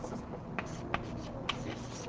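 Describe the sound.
Pen or chalk strokes while writing down a formula, a few faint taps and scratches over a steady background hiss.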